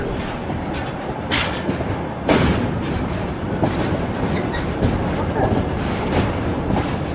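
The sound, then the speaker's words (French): Trans-Siberian train wheels clatter on the rails in a steady, rumbling rattle, recorded on the gangways between carriages during a 2015 journey, with a few sharper clicks of rail joints standing out over the continuous noise. “Le son du train sur les rails, on l'entend derrière nous, hein, c'est vous qui avez enregistré ce son du Transsibérien.”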